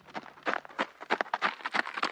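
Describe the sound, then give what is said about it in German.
Hooves of a Przewalski's horse, a wild horse, clip-clop in a quick, uneven run of many sharp beats that stay fairly soft and fall at irregular intervals. “Ich sitze nicht auf einem normalen Pferd, sondern das ist ein Przewalski-Pferd, ein Wildpferd.”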